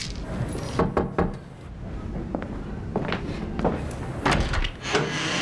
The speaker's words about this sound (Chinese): 我上次给你拿的麦乳精，你怎么都没喝呀？ 啊，忘了，想不起来了。 我给你打开啊，记着喝。